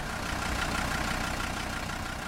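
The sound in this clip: A car engine idles steadily, an even, continuous mechanical hum over a low rumble with no change in level.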